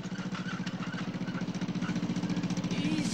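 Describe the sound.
A tractor engine runs as the vehicle pulls up to a barn, giving a steady, low, rhythmic chugging that grows slightly louder toward the end.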